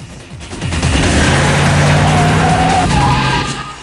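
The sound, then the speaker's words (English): A Jeep races and skids, its engine roaring with tire noise in one loud, continuous burst that swells and then eases over a few seconds, with no talk. “Carter races up in the Jeep. Barnes changes gun clips. Barnes jumps in the Jeep. He takes the wheel.”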